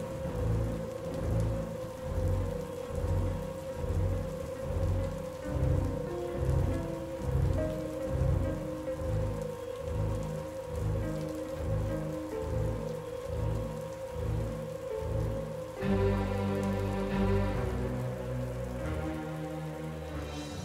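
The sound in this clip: Heavy thunderstorm rain pours down on a street, a loud, steady wash of rain that lasts throughout with deep, rhythmic rumbling underneath.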